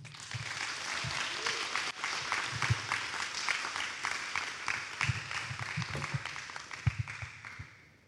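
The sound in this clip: Applause from an audience at a morning gathering welcoming a new member to speak, a quiet patter of many hands with some sharper claps, tapering off at the end.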